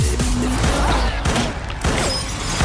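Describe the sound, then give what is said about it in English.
Gunfire warning shots in a film scene: a few sharp cracks punch through a dense, loud soundtrack that stays busy throughout. “Shoot at him! Those were warning shots”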